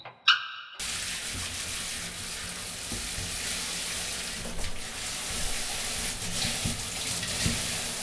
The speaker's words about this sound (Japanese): じゃあそろそろシャンプー流しちゃおうね。